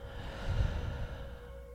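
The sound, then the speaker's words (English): A slow exhale through the mouth during a guided breathing exercise, a soft, faint breathy rush over a steady background tone. “Inhale through the nose. And exhale through the mouth.”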